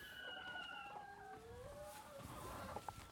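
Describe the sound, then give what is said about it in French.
Hens in a henhouse, some sitting in nest boxes laying eggs, give soft, drawn-out warbling calls and low clucks. The sound is faint and steady, with a couple of sharper notes near the end. “Donc là, on vient d'entrer dans le poulailler. Et je vois déjà plein d'œufs. Celles qui sont dans les, dans les nids euh, derrière, euh, elles sont en train de pondre là.”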